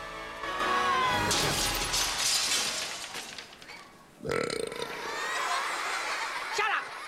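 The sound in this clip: Crash of a silver platter shattered over a boy's head at a school assembly, with cheering friends around: a stretch of loud, noisy commotion gives way to a sudden sharp breaking crash, followed by a rattling, ringing decay.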